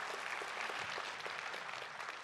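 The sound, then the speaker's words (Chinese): Church audience applauding during a service, a faint but dense, continuous patter of many hands clapping at an even level. “我们体检合格了，哈利路亚，给你们自己一个大鼓掌，是你们的。”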